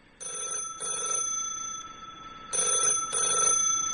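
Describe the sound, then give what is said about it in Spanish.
A telephone rings with an incoming call in a steady electronic tone. It sounds in two double-ring bursts separated by a short silence, loud and alone without any voices. “Al parecer tenemos un llamado.”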